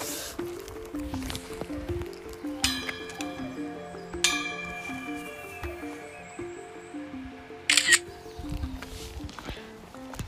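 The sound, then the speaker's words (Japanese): A trekking pole knocks against something on a multi-day hike along the Nakahechi pilgrimage trail, giving a few sharp, separate strikes with short metallic rings. They sound over a steady, patterned background at low level. “ストックが当たった”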